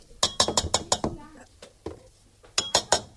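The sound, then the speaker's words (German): Dough scraper folding 200 grams of coconut flakes into a thick batter: a quick run of sharp clinks and taps against the bowl, a pause with a few scattered knocks, then another short burst of clinking. “So, jetzt hebe ich die Kokosflocken mit Hilfe eines Teigschabers unter.”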